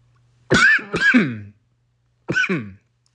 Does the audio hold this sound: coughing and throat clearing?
yes

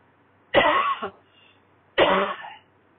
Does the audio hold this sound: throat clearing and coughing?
yes

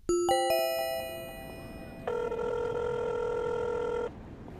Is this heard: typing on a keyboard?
no

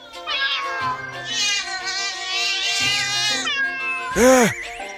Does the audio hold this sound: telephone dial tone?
no

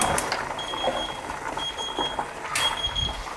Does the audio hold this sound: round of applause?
no

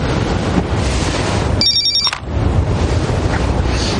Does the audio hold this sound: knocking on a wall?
no

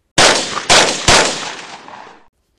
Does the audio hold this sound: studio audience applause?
no

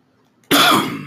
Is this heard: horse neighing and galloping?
no

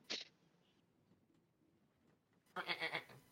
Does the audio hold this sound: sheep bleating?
yes

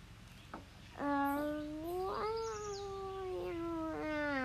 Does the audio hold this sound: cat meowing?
yes

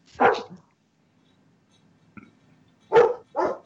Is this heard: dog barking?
yes

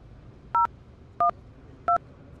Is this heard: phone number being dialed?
yes

